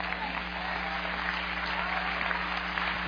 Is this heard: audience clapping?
yes